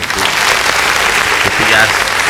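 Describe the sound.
Applause sound effect in a Spanish-language music chat about a metal band's album, a bright, steady burst of clapping at a fairly loud level with a voice partly over it.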